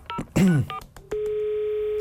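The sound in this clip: A telephone dial tone as a call is placed: a steady, unbroken hum holds for the second half, after a short burst of breath and voice sounds.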